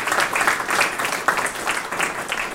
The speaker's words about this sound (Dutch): En zullen we het onderstrepen met een applaus.